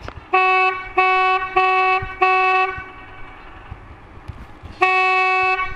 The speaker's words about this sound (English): Well, as this is a ship canal, I'm obliged to give sound signals. Those on the foredeck may wish to put their fingers in their ears.